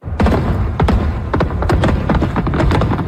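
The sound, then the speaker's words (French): Fireworks at midnight over the Toronto waterfront, part of a ten-minute display: a dense run of loud overlapping bangs, thuds and crackling bursts that keeps going without a pause. “Alors, feu d'artifice pendant 10 minutes. Grand déploiement, ma foi!”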